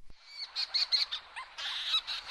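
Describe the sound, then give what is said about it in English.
Leach's storm petrels and fork-tailed petrels calling at night over a large burrow-nesting colony in soft forest soil: many rapid, high chirring and squeaky notes in quick bursts, then a denser run of overlapping calls. “Anderson from the University of Kansas recorded two kinds of birds, the leach's storm petrel and the fork-tailed petrel”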